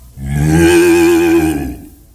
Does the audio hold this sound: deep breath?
no